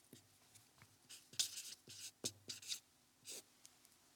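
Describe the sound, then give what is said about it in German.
Writing on a board, a faint series of short, scratchy strokes in uneven bursts, some quick and close together, with brief pauses between groups. “Und letztlich, schreibe ich jetzt nochmal hier oben hin,”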